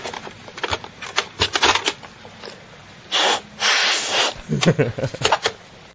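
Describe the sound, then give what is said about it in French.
Someone blows into a Nintendo game cartridge: two short, breathy gusts in the middle, surrounded by sharp plastic clicks and rattles of handling. “Il souffle dedans. Une cassette vidéo. Une cassette de Nintendo.”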